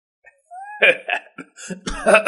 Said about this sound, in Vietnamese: cười rồi ho sặc sụa